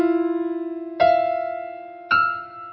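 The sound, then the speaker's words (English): A dissonant musical chord builds up from clashing tones. A sustained note wavers with audible beating, and new notes strike in at two later points. Each new attack rings out and then slowly decays, thickening the harsh, clashing sound. “And the first chord is what we call dissonance. And dissonance sounds like this.”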